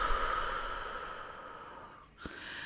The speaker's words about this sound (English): Everybody inhale in and out. Let's do it again. Breathe in and out.